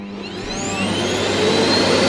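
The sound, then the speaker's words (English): A household vacuum cleaner runs in the morning with a loud, steady roar and a high whine that slowly climbs in pitch, heard alone without voices. “Here's an actual recording of your mum vacuuming in the morning.”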